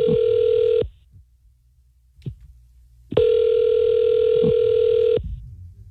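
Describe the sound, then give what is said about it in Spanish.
Ringback tone of an outgoing telephone call: a steady tone already sounding at the start cuts off, then silence, then a second long tone of about two seconds. No talk. “¿Le puedo llamar, ya? Ya está sonando.”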